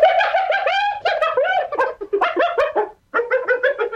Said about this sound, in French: C'est le cri d'une hyène.